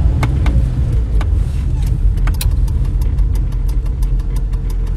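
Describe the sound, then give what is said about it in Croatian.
A car engine runs with a loud, steady low rumble throughout, joined by a series of sharp, regularly spaced clicks in the second half. “Stani i okreni auto. Molim te, stani i okreni auto.”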